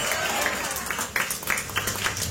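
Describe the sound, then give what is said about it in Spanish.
A church audience clapping hard as an offering to God. A fairly faint, steady wash of many hands, with a few sharper claps rising above it. “Denle una ofrenda de palmas fuertes a nuestro Dios.”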